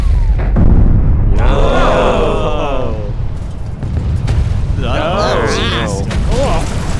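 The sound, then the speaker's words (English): A loud fire-spell explosion rumbles deep and continuously throughout, with voices shouting and calling out over the roar. “All right, who has the fire spell? Oh, I do. One fire spell coming right up.”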